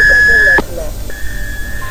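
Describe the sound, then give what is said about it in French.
A steady electronic beep tone, like a phone-line answering prompt, holds for about half a second before cutting off, followed by a fainter steady tone over background noise. “Au bip sonore, soyez créatif.”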